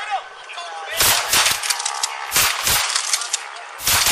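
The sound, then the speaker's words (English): Police less-lethal guns fire beanbag rounds at a man standing on a house porch, giving several sharp, loud cracks in irregular bursts with quieter gaps between them. “They shoot several rounds of beanbags at him. You hear the guns firing? Those are beanbags.”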